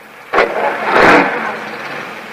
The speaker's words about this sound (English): The last of the workmen leaves in his car.